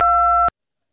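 A voicemail beep before leaving a message: one steady, loud electronic tone holding for about half a second, then cutting off abruptly into silence.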